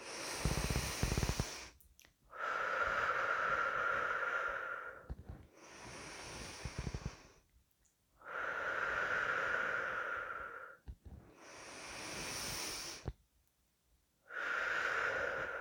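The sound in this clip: Slow, deep breathing during a guided breathing exercise: long, airy inhalations and exhalations alternate, each lasting a couple of seconds, separated by short silent pauses, with no talk.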